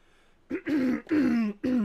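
Throat clearing by a man with a clogged, congested chest: a quick series of loud, harsh, voiced rasps, each sliding slightly downward in pitch.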